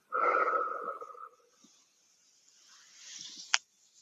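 A long, loud breath out follows a counted hold during a relaxation and neck-massage exercise. It is a breathy rush lasting over a second, then a quieter breathy swell ending in a sharp click.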